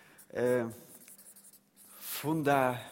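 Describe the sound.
Handwriting makes soft, scratchy strokes in short uneven bursts, heard between two stretches of a person talking.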